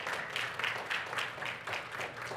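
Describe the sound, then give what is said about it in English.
Faint, steady rhythmic hand clapping from a church audience clapping in praise, with many evenly spaced claps blending into a soft, continuous patter. “so we should just have no problem with giving him a hand clap of praise”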